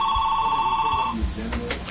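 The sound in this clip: A telephone rings with an incoming call to a radio call-in show, a steady electronic tone that holds for about a second and then stops, leaving a faint low murmur.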